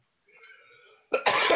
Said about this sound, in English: I apologize for being slow on the cough button.